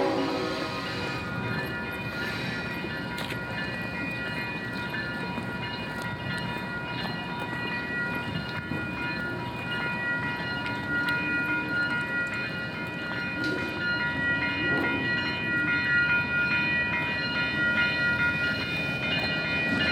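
Train bells ring as a train runs ahead, a thin, steady ringing tone above a continuous, faint rumble of rail noise that holds at a constant level throughout.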